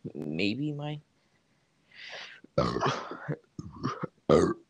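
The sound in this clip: A person burps, giving a low, gurgling voiced burst about a second long. After a short silence, several brief vocal bursts follow.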